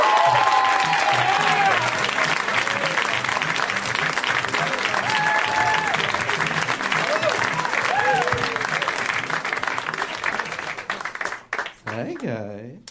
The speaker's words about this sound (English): Let's hear right now for Ron Funches, guys. Give it up for Ron.